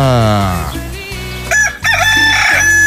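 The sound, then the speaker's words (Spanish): An early-rising rooster crows in a loud, drawn-out call with a rising, strained tone, set over steady low background tones. “qué bonito canta mi gallo, el gallo madrugador de San Cristóbal”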